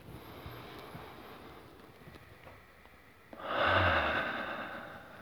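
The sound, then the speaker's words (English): Slow, deep breathing: a faint, airy breath that swells into a louder, longer exhale toward the end, alone without talk. “So just start with some slow breaths to feel the breath in your body. Some slow and deep breaths.”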